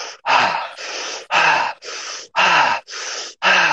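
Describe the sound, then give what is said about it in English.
Fast, rhythmic breathwork: seven forceful, evenly spaced breaths pulled in and pushed out through the nose and mouth, each a loud, airy rush separated by brief pauses, with no talking. “Go fast with this one. Generate heat. Lightheadedness may come. Bring it in. You're fine where you are. Strong spine. Clear mind. Five more breaths.”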